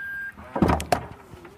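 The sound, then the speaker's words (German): A large SUV's power tailgate opens electrically: a steady electronic beep, then a couple of latch clunks and a low motor whine that slowly rises in pitch, with no voices. “Wie du hörst, öffnet sich die Heckklappe natürlich elektrisch.”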